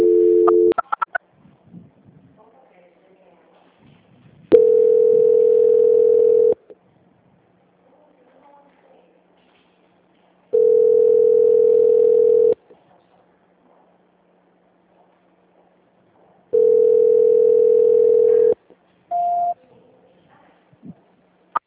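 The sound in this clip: Ringback tone on a telephone line while a call is being transferred and not answered: three steady, low, two-second beeps evenly spaced by long silent gaps, with a few brief clicks at the start and end.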